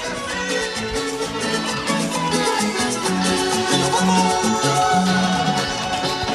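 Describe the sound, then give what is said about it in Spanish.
Music plays from a loudspeaker beside the stage at the Tralcao costumbrista folk fair in San José de la Mariquina, Chile: a continuous, steady, full-band tune with melodic lines and a constant level throughout, with no pauses. “Es el parlante de la música que sale justamente de un costado del escenario”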